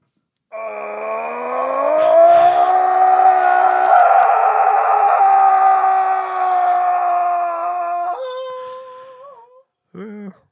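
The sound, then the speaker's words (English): A long, loud sustained human scream into a microphone, harmonic and steady in pitch, holding for several seconds before weakening and petering out, followed by a short separate vocal burst. “You're going to let it rip and scream until you can't scream anymore.”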